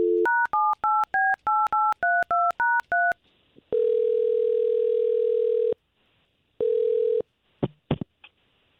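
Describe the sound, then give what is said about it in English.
Telephone dialing: a quick run of DTMF keypad tones in shifting pitches, then two long, even ringing tones separated by a pause, followed by a few brief clicks. “We'll try to call her right now and let us talk to her first, okay?”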